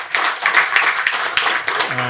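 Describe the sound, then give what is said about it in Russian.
Audience applause at an investor presentation, a dense, steady patter of many hands clapping at moderate volume throughout, with no voices rising above it. “Ну, чуть-чуть поаплодируйте, нет, хотя бы.”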